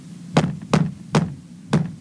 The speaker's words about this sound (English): It sounded like the wall knocked back at me.